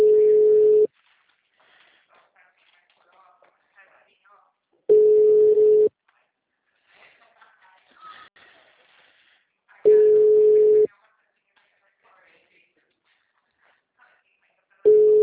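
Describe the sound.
Telephone ringback tones sound while someone tries to phone a person. There are four steady, mid-pitched beeps, each about a second long and spaced roughly five seconds apart, with faint voices murmuring in the gaps.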